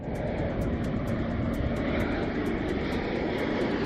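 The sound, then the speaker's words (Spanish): Pilatus PC-21 aircraft of the Spanish air academy run their engines while preparing for flight before a military parade, a steady, dense roar holding at an even level throughout, with faint regular high ticks over it. “toma el relevo la formación Mirlo y los aviones Pilatus PC-21 de la Academia General del Aire. Este es el sonido de los preparativos.”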